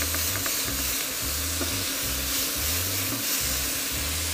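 Food browns and fries in a pan over high heat, a continuous loud sizzle and hiss with a low, uneven bubbling underneath.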